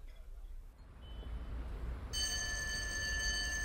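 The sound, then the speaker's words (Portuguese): A telephone rings with a steady, bright electronic tone that starts partway through and holds to the end over a low background rumble. “Oh, desculpa, tenho que atender esta chamada.”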